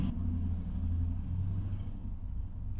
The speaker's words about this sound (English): Someone's riding a Harley Davidson outside.